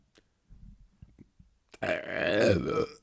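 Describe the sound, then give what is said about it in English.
One loud, long belch, low and gravelly, rumbles for over a second. A few faint, short mouth noises come before it. “In the memory of your dead grandma, just a big fat Buffy belch.”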